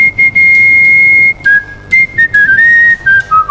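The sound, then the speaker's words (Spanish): A man whistles a tune of the kind used for tangos and folk music. Clear, pure, loud tones hold one long steady note, then move through shorter notes in small pitch steps, with no other sound. “con su silbido, interpreta tangos, música folclórica,”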